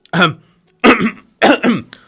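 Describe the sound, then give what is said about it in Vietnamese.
A voice gives a few short, dry, throat-clearing coughs, each a rough voiced burst, some split into two quick pulses. The coughs are loud and stand alone with silence between them. “Thấy thế, Ngọc Đế ho khan hai tiếng, làm mặt tỉnh bơ.”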